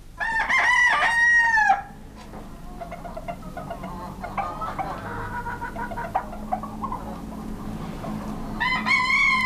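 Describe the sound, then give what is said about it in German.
Roosters crow at dawn on the island of Chios. One long, loud crow opens, a quieter stretch of low background sound follows, and a second bright crow rises near the end. “Schon die Hähne.”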